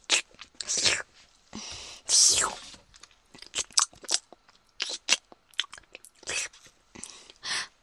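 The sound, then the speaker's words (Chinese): Chewing and biting into food while eating: many crisp crunches and wet mouth sounds in an irregular rhythm, fairly loud and alone. “真好吃。你要不要吃一口？那妈妈都吃了。”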